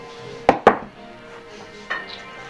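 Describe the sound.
Dice rolled during a tabletop role-playing game: two sharp clacks in quick succession, then a softer third knock after a pause, with a quiet background between.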